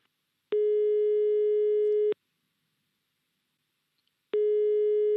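A telephone ringback tone sounds while a call is being placed: two long, steady, mid-pitched beeps separated by a silent gap, the second starting near the end, clean and alone with no voices.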